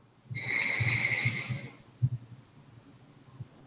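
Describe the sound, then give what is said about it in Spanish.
A deep breath drawn in during a relaxation exercise: a soft, airy hiss lasting about a second and a half, with faint low thumps beneath and after it, no talking. “para terminar, podemos hacer una inhalación profunda.”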